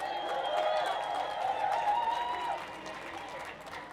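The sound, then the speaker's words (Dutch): Applause and crowd noise at a demonstration against racism and fascism: a fairly faint, continuous wash of clapping that holds steady, then eases off toward the end. “Ik wil dit applaus dubbel naar jullie terug.”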